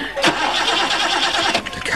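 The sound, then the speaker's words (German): A car engine cranks but fails to start, giving a dense, continuous grinding churn that pulses unevenly for about two seconds without catching. “Mein Gott, Sie sehen es doch, der Motor springt nicht an.”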